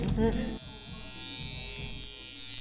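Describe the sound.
Tattoo machine buzzing for a test dot, a constant high-pitched electric drone that runs evenly from start to finish. A brief bit of talk comes just before it.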